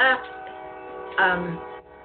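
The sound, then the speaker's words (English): A train horn sounds twice at night, each blast a long, loud chord, the second lasting about half a second before fading. “There's our lovely train for the night. That's a great sign, by the way.”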